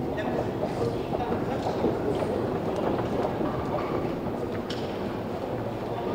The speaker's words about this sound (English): Okay, we're on the actual subway platform now.